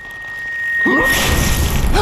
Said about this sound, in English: The butcher is dead! His head exploded!